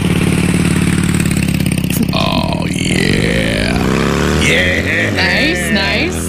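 A motorcycle engine revs with a loud, continuous low drone. Its pitch shifts and sweeps through the second half, mixed with higher tonal sounds.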